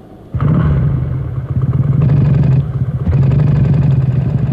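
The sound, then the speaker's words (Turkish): A motorcycle engine is started and revved: after a short quiet moment it fires up into a loud, throbbing idle, then rises in a couple of throttle surges, with no voices. “Şimdi iki motorla mı gidiyoruz? Tabi. Hadi öyleyse geç kalmayalım. Yalnız çalıştırırken dikkat et gazı birdenbire açma.”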